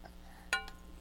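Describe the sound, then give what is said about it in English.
A spoon knocks against a pot while stirring, giving one sharp metallic clink and then a softer second tap, faint over a low steady hum. “Here, you want a spoon? You want to stir it?”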